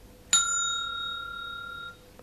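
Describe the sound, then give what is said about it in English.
A bell rung once as a signal to turn the page: one bright, clear metallic strike whose high tone rings on and slowly fades over about a second and a half. “When you hear the bell, turn the page.”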